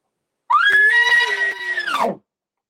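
A person screams to imitate a bull elk call, one loud, sharp, harsh cry lasting under two seconds, rising quickly at the start, holding steady, then dropping off abruptly at the end.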